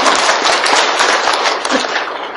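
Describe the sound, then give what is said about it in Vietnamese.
Applause from an audience at a Buddhist gathering in a remote rural area, given in thanks to a venerable monk. Dense, loud clapping fills the whole clip as a steady crackling roar, with no voices over it. “Xin quý vị cho một tràng pháo tay.”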